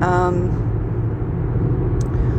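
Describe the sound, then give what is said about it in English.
A car being driven gives a steady low engine and road rumble that stays even throughout, with no clear changes in speed. “Okay, well, I'm driving north. Well, I'm headed north. Right now I'm driving west,”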